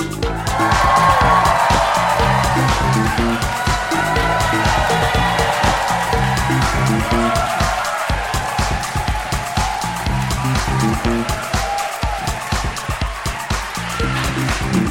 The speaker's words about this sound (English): Thank you. Good whooping. Are you happy with that whooping? Good whooping. How do you feel the whooping compares to London? Much better whooping than London, wouldn't you say?